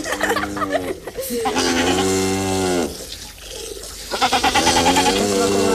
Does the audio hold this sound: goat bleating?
yes